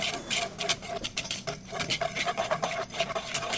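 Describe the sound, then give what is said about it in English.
A spoon or whisk stirs flour, sugar, baking powder, cocoa powder and salt in a bowl for a chocolate dessert, making a continuous gritty scraping and rubbing with quick, uneven strokes throughout. “Get a bowl, dump all of your dry ingredients in. So that's the flour, the sugar, the baking powder, and the cocoa powder, and the little pinch of salt. Once you're done, mix that all up.”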